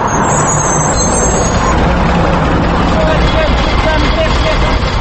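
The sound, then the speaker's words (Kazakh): Engine rumble fills a crowded route 79 city bus driving through central Almaty, a steady dense roar with murmuring voices mixed in throughout. “Алматының Тимирязев, Абай, Фурманов сынды орталық көшелерінен жүретін 79-шы маршрутты автобус әдеттегідей адамға лықа толы.”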